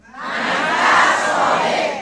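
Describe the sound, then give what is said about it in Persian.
An audience shouts a phrase together on a performer's cue, a loud, dense crowd yell that swells quickly, holds for a moment and tails off within two seconds. “میخوام یه چیزی رو بگم، همه تون بلند داد بزنین. باشه؟ داد میزنین ها؟ همه تون داد بزنین، بگین من کفش پامه.”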